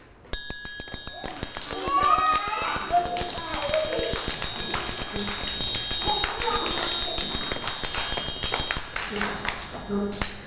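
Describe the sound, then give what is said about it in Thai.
Fast, steady tapping rhythm played by a teacher in a children's lesson on slow and fast tempos, with many quick, even taps running throughout while a woman talks over them. “จังหวะนี้คือจังหวะอะไรคะลูกจังหวะช้าหรือเร็วคะจังหวะเร็วถูกต้องเลยค่ะ”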